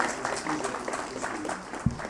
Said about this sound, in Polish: Prosimy o brawa.